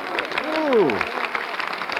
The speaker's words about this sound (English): They're applauding you.